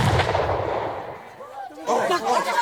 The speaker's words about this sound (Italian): Iacu tirò fuori dalla tasca della giacca una pistola e sparò un colpo verso la finestra. E dopo un istante la doppietta gli rispose.